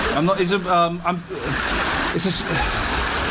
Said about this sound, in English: The sound you can hear is running water. I'm by a brook.